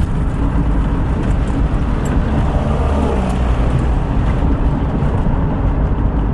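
Steady engine and tyre roar of a car driving the road toward Progreso in western Honduras, a dense, unbroken rumble that holds at an even level throughout.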